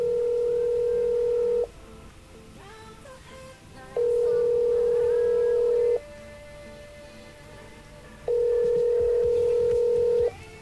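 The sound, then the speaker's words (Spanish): An incoming international collect telephone call rings in three long electronic bursts of steady tone, each lasting about two seconds. Quieter gaps fall between the bursts. “Perdonad un segundo. ¿Sí? Vale, vale. Parece que tenemos una llamada.”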